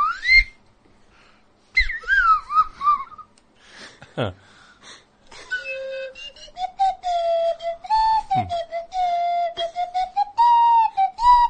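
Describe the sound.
A slide whistle plays bright, reedy tones that glide up and down in pitch, including a few swooping downward slides and a longer wobbling held note near the end.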